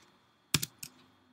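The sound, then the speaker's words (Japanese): Typing on a computer keyboard into a plugin search box produces a few quiet, sharp key clicks close together, then near silence. “このように入力してください。”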